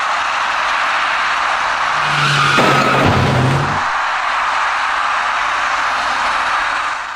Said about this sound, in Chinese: 由于刹车不及，一辆自西向东行驶的工程车打断了这位骑车人闯红灯而过的梦想